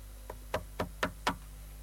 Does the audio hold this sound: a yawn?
no